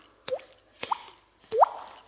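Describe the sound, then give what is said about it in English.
Mouth-made water-drop plops, three in all, each a sharp click followed by a short upward-gliding tone. They come at roughly half-second gaps with nothing else around them, and the last is the loudest. “You know, you do the water drop thing or something.”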